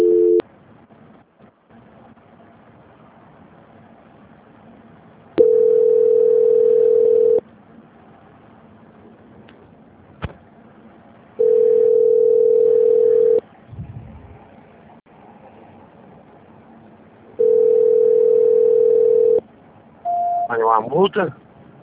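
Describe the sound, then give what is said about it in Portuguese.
A telephone line tone plays while a call is transferred: three steady, evenly spaced beeps of about two seconds each with quiet gaps between, then a brief higher tone and some faint clatter at the end. “Espera um minutinho na linha que eu vou passar a ligação, tá? Tá. Transferência.”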